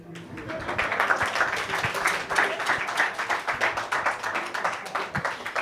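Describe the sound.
Audience applause at a comedy night, a dense and steady burst of many hands clapping that holds fairly loud throughout.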